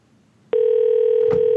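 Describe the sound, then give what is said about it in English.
Electronic ringing from a wristwatch receiving a phone call: a steady, loud single tone starts abruptly about a third of the way in and holds unbroken to the end. “Oh, it's my watch that's ringing.”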